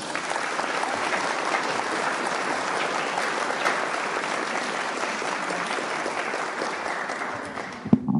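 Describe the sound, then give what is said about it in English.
Applause at a recovery group meeting welcomes the secretary to the front. A dense, even clatter of many hands holds steady for about eight seconds, then tapers off near the end. “let's thank Tom one more time. Okay, it's time for the secretary report. Mark's going to come up and do that. Please welcome him.”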